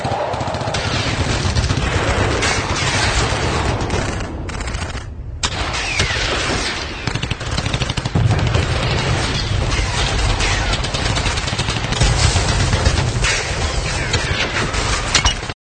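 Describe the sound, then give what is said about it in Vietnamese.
Sustained volleys of gunfire as a sound effect: dense, loud rattling bursts and booms run almost unbroken, with one brief drop in the barrage partway through. “Mấy loạt súng đua nhau xé không khí, loạt đạn đùm đùm, cắt bùm, nổ”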